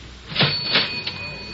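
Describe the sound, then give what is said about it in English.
Coins fed into a cigarette vending machine produce a few short metallic clinks and clanks over a steady hiss, the first two fuller and a last one lighter. “Did I have some change for the cigarette machine?”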